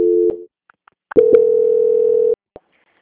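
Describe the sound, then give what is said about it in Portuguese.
Telephone line tones of an incoming call being transferred: a short steady tone, then a few faint clicks, then a longer, loud steady mid-pitched tone that stops abruptly and is followed by one last click. “Tá querendo entrar uma ligação aqui. Transferência.”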